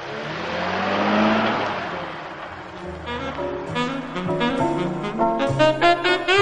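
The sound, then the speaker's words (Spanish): A taxi pulling away on a city street: its engine swells into a rising roar as it accelerates, then revs climb in several stepped surges, loud and continuous throughout. “Un taxista detiene su vehículo junto a él y el detective se monta. El conductor arranca.”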